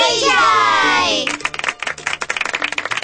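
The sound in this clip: Hands clap rapidly in a dense burst of many claps, praising a child's good answer, after a brief ringing musical tone opens the moment.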